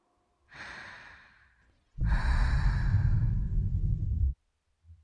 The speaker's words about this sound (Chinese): 每一次听到吐息声，身体就会变得更加放松。